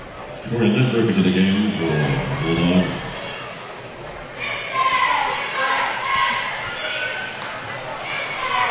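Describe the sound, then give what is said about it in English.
A basketball bounces on the court before a free throw at a game. The dull thuds come under steady crowd noise and talk. “First free throw coming for Krishan Smith is, is missed.”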